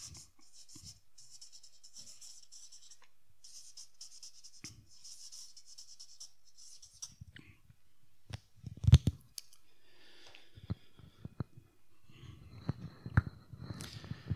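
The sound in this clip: Handwritten notes being put down, a pen scratching in bursts of short strokes for several seconds, followed by a few scattered clicks and taps.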